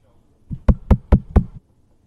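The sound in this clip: Knocking on a house's front door: five quick, evenly spaced raps, the first one softer, followed by quiet.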